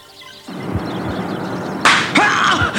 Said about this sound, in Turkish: Gözüm patladı. Kim tokat vurdu? Etrafta kimse de yok. Bir bakışa bir tokat.